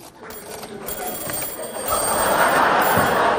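A telephone rings when a call comes in to a late-night call-in line, a steady, loud ringing that grows stronger partway through and holds to the end.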